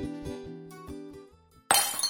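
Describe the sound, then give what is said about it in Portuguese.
A drinking glass is knocked over and shatters, a sudden bright crash with tinkling shards, breaking in after a stretch of soft, pulsing tonal music. “Quem colocou esse copo aqui, hein? Qual de vocês, crianças estúpidas, colocou um copo bem no lugar onde alguém vai passar, esbarrar e derrubá-lo?”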